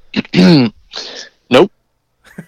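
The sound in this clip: Someone clears their throat in a few rough, harsh bursts mixed with short voiced grunts. Each burst is loud and separated by brief silences, with a faint final rasp.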